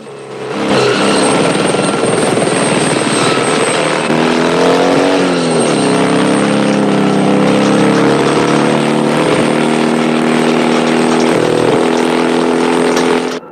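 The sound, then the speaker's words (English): Helicopter in hot pursuit, a loud, continuous rotor and engine drone whose pitch dips briefly and then recovers before holding steady to the end. “The helicopter banks left in hot pursuit.”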